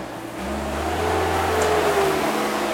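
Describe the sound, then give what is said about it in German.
A front loader drives past on a street just around the corner, its heavy engine giving a steady low droning rumble that swells a little and then holds. “wenn hier der Vorderlader gleich ums Eck fährt und uns die Sendung verhaut. Nächstes Mal beantragen wir die Sperrung der Straße hier.”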